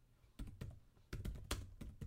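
Computer keyboard typing in quick bursts while a short film script is written, with a few clusters of sharp, faint keystroke clicks separated by brief pauses and no voices.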